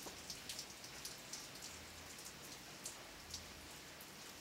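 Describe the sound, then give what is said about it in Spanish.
Steady rain falling, a soft, even hiss with faint scattered drop patters throughout and no voices. “Y acá seguimos con la lluvia. Yo creo que sí la alcanzan a escuchar, ¿no?”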